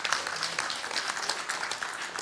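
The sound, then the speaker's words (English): A church audience claps in praise, a dense, continuous wash of many hands applauding at steady loudness, with no clear individual rhythm and no voice on top. “Give God a hand clap for this.”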